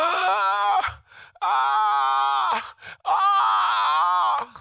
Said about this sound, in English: And the Spirit of God is using your mouth to groaning.